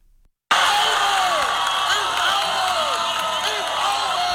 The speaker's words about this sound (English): That was the sound in Moody this week as ACU students cheered on their fellow classmate Cam Hazard in the 2026 Dunkman World Championship.